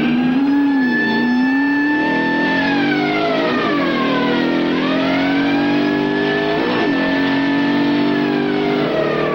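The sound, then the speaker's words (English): A police car races along a dirt road in pursuit, its engine revving steadily and loudly with repeated sweeping rises and falls in pitch as it accelerates. “As the cop pulls up beside him again, Ray turns onto a dirt road, running back into the bush. The cop races after him.”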